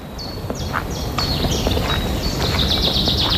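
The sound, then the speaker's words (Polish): Birds singing in a forest: many quick, high, downward-sweeping chirps repeat over a steady background hum. “jesteśmy w pięknym drzewostanie, ptaszki śpiewają, słońce pięknie gra”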